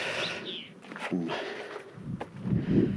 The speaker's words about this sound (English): But I'm currently walking on a Roman road, which seems to stretch east-west.